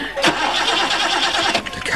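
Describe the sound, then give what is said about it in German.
A car engine cranks but fails to catch, producing a loud, continuous churning whir with a couple of sharper surges as the starter keeps turning over without the motor firing. “Mein Gott, Sie sehen es doch, der Motor springt nicht an.”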